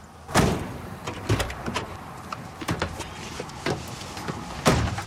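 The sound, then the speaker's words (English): Car doors open and shut as three people climb into a vehicle, giving several sharp thuds and clunks spread unevenly across the stretch, with quieter rustling and handling noises between them. “He opens the doors and two people climb out, along with the leader of the group. The three lads get in.”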